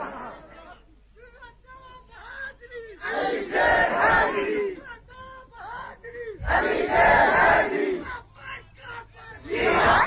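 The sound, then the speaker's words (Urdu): Crowd chanting slogans at a public speech, in call and response: a single voice calls out, then the mass of people roars back in loud shouted bursts, repeated a few times, with murmuring between. “نہ میں اپنا نعرہ لگوانا چاہتا ہوں، نہ مجھے یہ پسند ہے، یہ اللہ کا قرآن ہے. جب تم میرا نعرہ لگاتے ہو مجھے کوفت ہوتی ہے”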